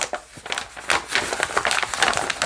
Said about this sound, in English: yep, love the sound of the paper.